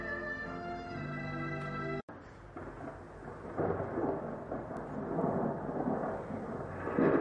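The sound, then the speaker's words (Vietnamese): Heavy rain pours down with rumbling thunder, a downpour dense enough to hide the road. A short stretch of tonal sound cuts off sharply, then a steady, loud hiss of rain swells in waves under deep rumbles. “Trời, sao mưa lớn như thế này chứ, không thấy đường chạy xe luôn rồi.”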